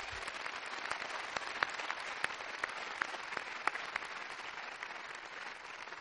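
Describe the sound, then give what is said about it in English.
An audience applauds a musical group that has been entertaining at a university ceremony, a dense, steady wash of many hands clapping alone, with occasional sharper single claps standing out. “I'd like you to put your hands together for Brian Sand and his group who've been entertaining.”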